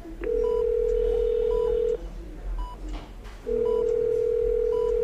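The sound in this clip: A telephone call goes through: a steady electronic ringing tone sounds twice with a gap between, and short higher beeps accompany it.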